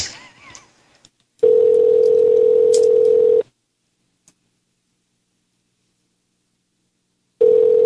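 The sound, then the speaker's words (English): Telephone ringback tone while a caller waits for someone to pick up: a steady, even-pitched tone sounds for about two seconds, then stops for about four seconds of silence, and a second tone begins at the very end. “Damn it, pick up the phone.”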